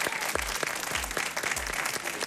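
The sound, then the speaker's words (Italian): A live audience applauds in the foyer of a concert hall auditorium during a book festival event. The clapping is steady and fairly soft, a continuous patter of many hands without a break. “abbiamo un pubblico dal vivo con noi, di cui sentirete ora l'applauso”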